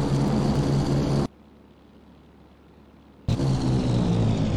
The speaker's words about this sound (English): Level bombing is used by medium and heavy bombers, like the B-17 here, which drop large numbers of bombs onto a target.